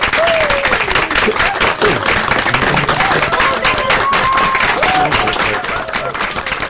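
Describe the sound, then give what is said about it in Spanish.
Applause fills the whole stretch, a dense steady wash of many hands clapping with crowd noise blended in. “Otro aplauso para ellas, por favor, los solicitos.”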